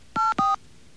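Two touch-tone beeps as a telephone number is dialed, each a steady electronic dual tone lasting about a fifth of a second with a short gap between them, heard alone.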